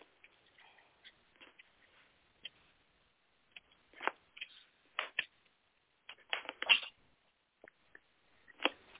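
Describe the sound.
Tarot cards are shuffled for a psychic reading, heard as quiet, irregular soft clicks and riffling bursts scattered between pauses.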